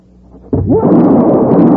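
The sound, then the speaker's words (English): A single gunshot from a derringer pistol in a dramatic confrontation, a sudden loud booming crack that gives way to a sustained rumbling roar. “There's still one bullet left in this derringer. You killed Feslin.”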